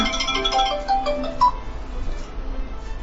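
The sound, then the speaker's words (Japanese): A phone ringtone announces an incoming call. Short melodic tones chime through the first half, then fade to faint background noise. “まだ電話かけてきた、 また親父から電話かけてきた”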